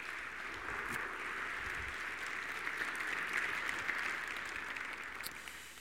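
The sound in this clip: An audience claps to welcome a speaker: a fairly faint, steady wash of applause that continues evenly before easing slightly at the close.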